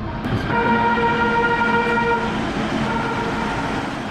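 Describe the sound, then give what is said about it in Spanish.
A metro train passes with a sustained whistling, horn-like tone over a continuous rumbling roar that holds steady throughout. “El metro pasó 3 veces, pero ella no lo abordó.”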